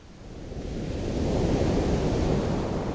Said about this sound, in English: I like to listen to the sound of the ocean.